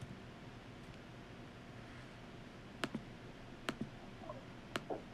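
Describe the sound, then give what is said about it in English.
Computer mouse right-clicks: three sharp, faint clicks, each a quick double tick, spaced about a second apart over a low steady hiss. “There you go. Right click.”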